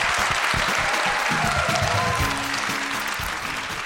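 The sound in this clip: An audience at the Shaw Theatre applauds a comedy panel at the end of a live show, with dense, steady clapping that holds at an even loudness throughout.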